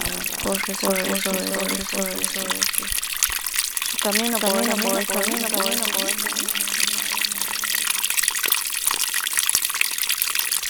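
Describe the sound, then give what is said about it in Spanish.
Water flows steadily along a stream in the Chaco, a continuous broad rushing hiss that stays level throughout while a voice speaks over it. “Mire cómo el agua corre sobre su camino, puedo decir, ¿no? El agua.”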